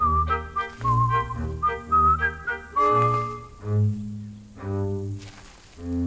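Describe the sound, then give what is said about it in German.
A chick character in a children's audio play whistles a cheerful, pretty melody of clear, bright notes that step up and down in a lilting tune, over softer lower tones. “Küken pfeift eine hübsche, fröhliche Melodie, während Ferkel neben ihm immer langsamer wird.”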